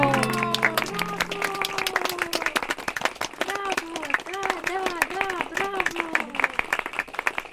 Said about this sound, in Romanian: Îi felicită pe actori că și-au interpretat atât de bine rolurile. De-aia aplaudă lumea.